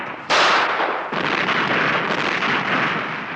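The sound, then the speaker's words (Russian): Gunfire in a film scene: two loud, sharp blasts ring out, the second following about a second after the first, each trailing into a dense, rumbling wash of noise. “Друг встает и стреляет.”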